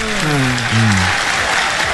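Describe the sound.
Audience applause for a woman on a comedy show: a loud, steady rush of clapping that lasts the whole time, with a voice speaking over the first half.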